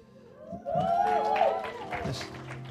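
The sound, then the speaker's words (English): Applause from a church audience welcoming first-time visitors. It swells after about half a second into sustained clapping and crowd noise, with a raised, sliding voice or whoop over it. “First-time visitors, let's give them a hand.”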